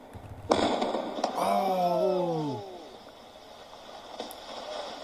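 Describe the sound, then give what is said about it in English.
A house blows up in news footage after police approach it with a search warrant in Arlington, Virginia. A sudden loud blast gives way to a few seconds of rolling rumble that slowly fades. “House in Arlington, Virginia explodes after police reportedly approach it with a search warrant.”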